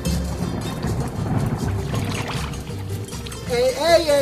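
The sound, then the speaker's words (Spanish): Rainwater pouring as it is collected, a steady rushing splash with a low rumble, joined near the end by a voice. “¿Qué está haciendo usted, my friend? Recogiendo agua de lluvia, ¿no ve?”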